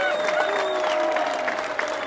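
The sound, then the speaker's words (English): Applause from a crowd at a Republican presidential candidate's campaign speech: dense, steady clapping that holds at an even level throughout, with some crowd voices mixed in. “Those comments drew applause and a few boos from the crowd.”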